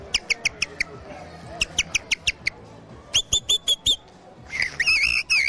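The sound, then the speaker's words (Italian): A person whistles an imitation of a blackbird singing at dawn, in a bird-call whistling contest. Clusters of short, high chirping notes come in quick runs, then a louder, warbling trilled phrase follows. No one speaks. “che cosa ci fa sentire? Un bel merlo all'alba.”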